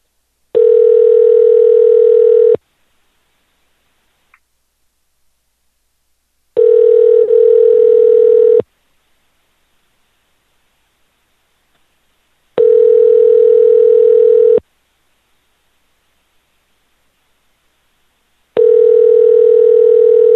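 Telephone ringing tone plays while a number is being called: four loud, steady, even-pitched tones, each about two seconds long, separated by roughly four seconds of silence.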